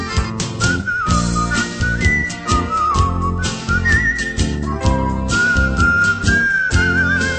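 Bright human whistling carries a melody of sustained and sliding high notes over a steady, rhythmic band accompaniment in a song about a whistling taxi driver.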